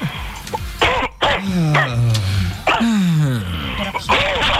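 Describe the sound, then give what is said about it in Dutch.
Harsh coughing and throat clearing in a few rough bursts, with rasping voiced sounds between them. “Verzorg je hoest.”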